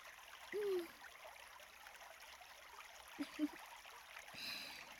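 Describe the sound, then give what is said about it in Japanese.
Water is poured over someone's head to rinse off slime, heard as a faint, continuous trickling wash with a few brief high squeaky tones on top. “あとは頭からも水をかけてと。”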